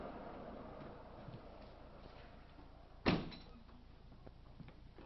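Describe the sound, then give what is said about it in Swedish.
A window being shut, heard as a single sharp thud partway through, standing out above a steady low background rumble and hum. “Jag tror jag stänger fönstret här.”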